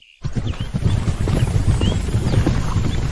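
Hoofbeats of a dozen or so horses ridden at speed, a dense, steady clatter of many overlapping hooves that starts abruptly and stays loud throughout.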